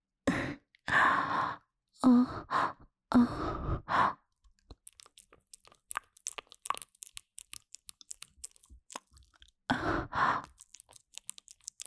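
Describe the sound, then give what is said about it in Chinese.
Crunching and chewing of small beans, many crisp irregular crackles in the middle stretch, with loud breathy sighs or gasps before and after. “这两个小豆豆吃起来味道还不错嘛。”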